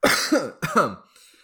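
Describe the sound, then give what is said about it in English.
A person coughs twice in quick succession. Both coughs are harsh and loud, and a faint tail trails off after them. “My cough was my response.”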